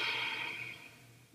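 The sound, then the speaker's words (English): A slow, breathy exhale after a held breath during a guided breathing exercise: a soft, airy rush that starts strongest and gradually fades over about a second and a half, faint and alone. “Hold your breath. Feel how the light makes you feel. And exhale.”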